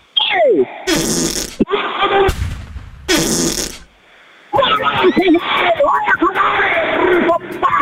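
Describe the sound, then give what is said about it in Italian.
Loud fart noises come in a few long, raspy, sputtering bursts separated by short gaps, followed by voices talking over the rest. “Ha sentito che bomba che mi è uscita dal culo?”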